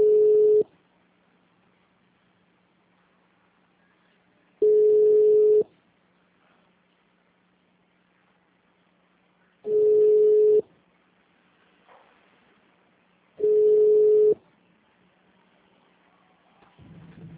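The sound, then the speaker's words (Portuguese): Telephone ringing tone on a call: four long, steady beeps at one mid pitch, evenly spaced with quiet gaps between them, and a faint low hum underneath. “Oi, a ligação está voltando para você.”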